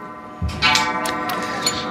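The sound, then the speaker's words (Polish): A clock strikes: a resonant struck tone rings out and lingers with sustained overtones, accompanied by a few lighter clicking ticks. “Zegar bije.”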